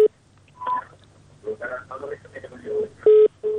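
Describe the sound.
Telephone tones as a call connects on a radio call-in show: a few short beeps and one longer steady tone, heard between stretches of talking.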